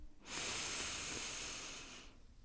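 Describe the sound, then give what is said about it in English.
One long, deep breath drawn in, a steady airy hiss that swells quickly, holds for about two seconds and then fades out, with no other sound. “And now I just want you to take one big deep breath in”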